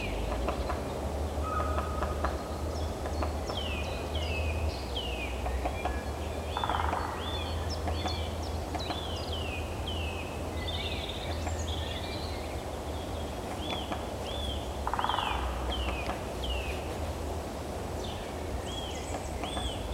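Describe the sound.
A bird drums with its beak in the distance, sending a couple of short rapid salvos through a dense chorus of chirping birdsong and a steady low rumble.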